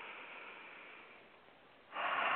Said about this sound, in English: One more breath deep in through the nose